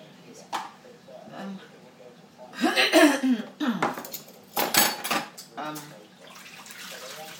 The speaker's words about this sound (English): his knife and fork or whatever he took. What did he take? Just put it in the sink. Spoon. Okay. Teaspoon and a big spoon.